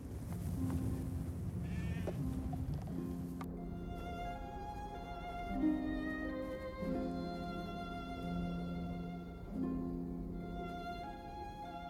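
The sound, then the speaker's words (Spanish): A lamb tied up in plain view bleats again and again with wavering, harmonic cries over a low steady background hum. “Yo no me aguanto más con ese cordero ahí a la vista de todo.”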